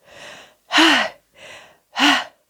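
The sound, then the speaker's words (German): Deep panting breaths from a person out of breath after running around playing hide and seek: four breaths, two quieter and two louder voiced gasps, alternating with short pauses and no other sound. “Und dann war ich ein bisschen außer Puste und holte tief Luft.”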